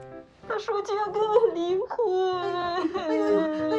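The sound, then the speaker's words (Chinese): A woman sobs and wails in distress, her crying rising and breaking in a few wavering, tremulous cries that sound almost like words, carried loudly with no other sound around it. “你别哭了，别哭了啊！”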